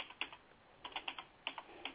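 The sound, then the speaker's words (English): Typing on a computer keyboard: quiet, crisp key clicks arrive in a few short bursts separated by pauses, with no voices present. “I'm typing it”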